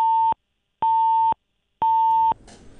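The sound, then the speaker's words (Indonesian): Telephone disconnection tone after a call drops: three evenly spaced, steady mid-pitched beeps, each about half a second long, followed by faint noise. “terputus sambungan telepon kami dengan reporter kami”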